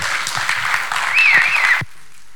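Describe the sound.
Applause from a Sunday church service audience welcoming a speaker, steady clapping with a brief whistle rising over it, cutting off abruptly after about two seconds.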